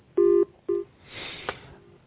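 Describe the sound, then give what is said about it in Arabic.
A phone call on a call-in line cuts off: two loud electronic beeps at the same pitch, the first longer than the second, followed by a soft hiss and one brief click. “انقطع الاتصال، لا بأس.”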